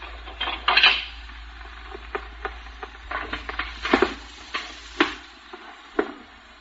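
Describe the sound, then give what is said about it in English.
A pickle dish breaking gives a scatter of sharp clinks, knocks and rattles of crockery, irregular bursts with a few louder hits spread over several seconds, no voices. “I want to know who done this. I want to know who done this. I want to know who broke this pickle dish.”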